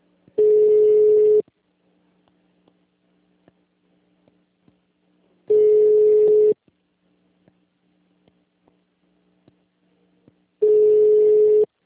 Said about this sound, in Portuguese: Vai chamar a ligação até cair, meu Deus.